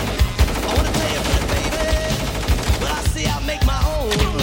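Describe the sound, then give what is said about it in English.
Gunfire as an enemy soldier opens fire in combat, with many rapid, sharp shots in quick, irregular bursts that stay loud throughout. “An enemy soldier opens fire.”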